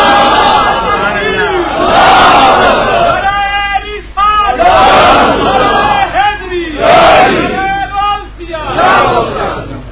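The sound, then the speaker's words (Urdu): A crowd at a religious gathering shouts a slogan in unison, loud massed voices rising in several forceful chanted bursts separated by short pauses. “ایک دفعہ اگر اس سے زیادہ زور کے ساتھ آپ نعرہ سنا سکیں تو بڑی مہربانی۔”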